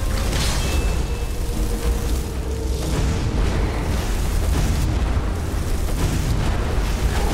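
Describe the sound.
Loud, sustained roaring and rumbling of fiery blasts from a conjured flame creature during a fantasy video game battle. The dense noise continues without a break and without any voices.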